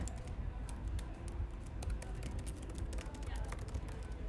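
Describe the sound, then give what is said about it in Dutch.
Typing on a keyboard produces many quick, irregular clicks and taps, faint and sharp, scattered over a low, steady background murmur. “En dan ga je gewoon een uur lang zo typen.”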